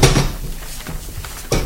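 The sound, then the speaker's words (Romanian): A window being opened, heard as a solid clunk at the start, quieter scraping and rattling in between, and a second louder clunk near the end. “Am să deschid fereastra.”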